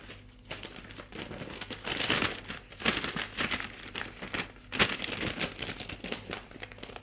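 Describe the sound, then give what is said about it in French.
Paper rustling as a letter is slipped back into its envelope: quiet, uneven crinkles and scrapes, broken by a few sharper crackles. “Remet la lettre dans l'enveloppe.”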